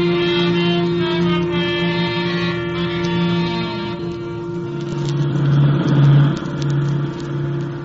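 A car engine hums with a steady tone as the car pulls up to the curb at the corner of Costa and Granite. The engine note shifts and swells briefly before easing off.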